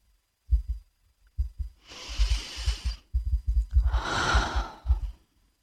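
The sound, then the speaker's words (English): A slow breath in and a long breath out during a guided relaxation exercise. Two soft, breathy rushes of about a second each are heard, with low rhythmic thumping underneath. “Take a breath in. Exhale it out.”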